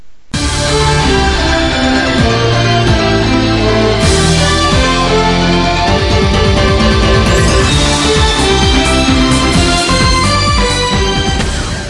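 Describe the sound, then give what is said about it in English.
Loud, energetic instrumental intro music for a news desk segment plays continuously with a driving beat and dense layered tones, starting abruptly and running at full volume throughout. “our news desk, which is going to have awesome intro music that sounds like this.”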